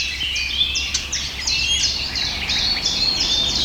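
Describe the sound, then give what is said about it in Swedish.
Blackcap contact calls: many sharp, dry smacking tack notes, high-pitched and fairly faint, repeated irregularly by birds foraging in a tree, over a low steady hum. “Det som smackar där, det är svarthättans lockläten.”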